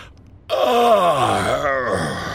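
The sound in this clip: A man groans while gingerly moving his sore jaw after a tooth is pulled: one long, loud, throaty moan that starts high, slides down, then briefly lifts and drops again before trailing off.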